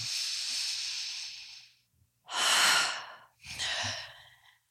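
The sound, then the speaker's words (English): Slow, deep breaths taken during a guided calming exercise: three long, airy breaths, the first drawn out for nearly two seconds, separated by brief pauses. No one talks. “Take a deep breath. Put your hand on your heart. In fact, just breathe in with me.”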